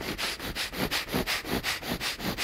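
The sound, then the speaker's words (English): Breath of fire: rapid, forceful nasal breathing with sharp sniffing pulses at a steady, quick rhythm of about four per second. “some of the extreme stuff I do, like 30 rounds of intense breath work, or even breath of fire, where you're like,”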